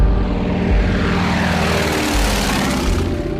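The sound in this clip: A propeller airplane droning in flight at altitude during a pilot's exam flight, a loud, steady, continuous engine roar with a deep rumble underneath.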